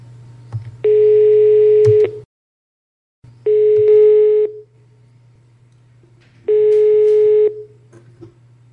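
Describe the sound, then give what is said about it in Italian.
Ringing tone on a telephone line while a call is being placed: three steady, moderately loud mid-pitched tone bursts, each about a second long, separated by pauses over a constant low hum. “oggi è venerdì 3 aprile e provo a chiamare Adelaide Tonoli.”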